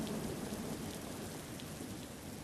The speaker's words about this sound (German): Es regnet, wir sind gerade im kleinen Walsertal